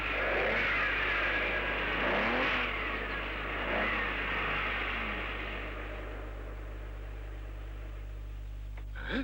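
A car speeds past at high speed: a loud, broad engine roar with rising surges of revving gradually fades to quiet over several seconds.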